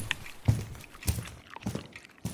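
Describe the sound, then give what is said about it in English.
Footsteps of a person walking around, a few faint, irregular steps with soft scuffing, heard alone without voices. “I need to walk around a bit.”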